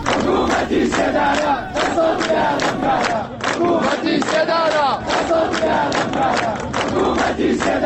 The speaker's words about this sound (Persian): شرکت کنندگان در مراسم روز شنبه شعار می‌دادند: حکومت اعدام، دست از جنایت ها بردار.